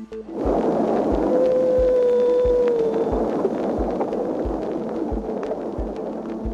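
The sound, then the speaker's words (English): An early recording of whale song: a single sustained tonal call holds steady, then dips slightly, over dense hiss and regular low throbbing pulses that continue throughout, with no voices. “what we've learned from the earliest known recording of whale song.”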